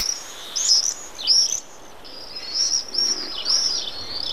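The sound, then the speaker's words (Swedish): Shrill, high-pitched screaming calls of a common swift ring out in a few short bursts, rising and falling sharply, with faint background hiss and no talk. “Här på slutet hörde vi hur tornseglaren låter.”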